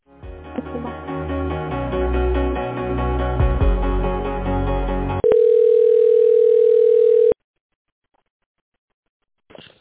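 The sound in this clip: Telephone line sounds play while a caller is transferred between departments at a medical centre: a few seconds of electronic hold melody, then a loud steady tone that cuts off into silence, and a faint click at the very end.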